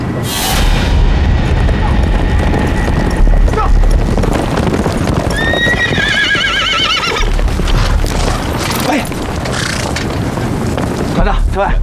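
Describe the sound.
A horse whinnies in a high, wavering neigh midway through, amid clip-clopping hooves and rough wind buffeting throughout.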